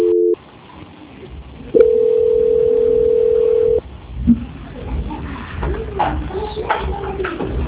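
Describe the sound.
Telephone tones during a call transfer: a short beep, then a steady sustained tone lasting about two seconds, followed by quiet, faintly noisy line sound.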